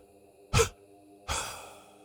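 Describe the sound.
Breathing exercise: a short, sharp breath, then after a pause a longer, drawn-out breath, two breaths in all, over a faint steady hum and with no talk.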